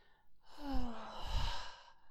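Blowing breath: two soft, airy exhalations pushed out one after the other, gentle and breathy, with a faint tonal hiss on the first and no talking.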